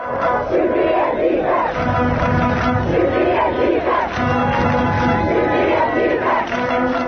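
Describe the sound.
Secondary-school students chanting 'Ethnic Albania' in a Pristina square: a loud mass chant in repeated rhythmic phrases over a constant crowd roar.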